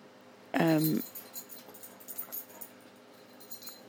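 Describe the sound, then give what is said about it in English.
A dog lets out one brief, whiny yelp, a short tonal cry with a wavering pitch, then quiet talking and light rustling continue underneath. “Please excuse my dog.”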